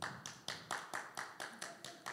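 One person claps quietly in a steady, even rhythm, about ten crisp claps at a brisk, regular pace with nothing else prominent.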